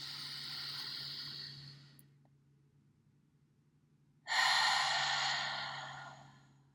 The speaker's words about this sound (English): Quiet your mind, let the day's stress, thoughts, anything on your mind slip away. Breathe in.